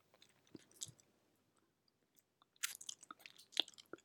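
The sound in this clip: Gentle nibbling of an earlobe produces soft, wet mouth clicks and small bites. A few scattered ones come early, then a denser run after a quiet pause, all faint and close, with no speech.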